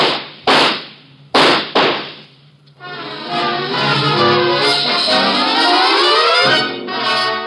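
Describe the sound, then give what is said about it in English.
Gunshots in an audio drama: three sharp, loud bangs in quick succession, followed by a sustained, droning tonal sound that carries on to the end. “Watch out, he has a gun! Get down! Shoot him, Ruba! Shoot him!”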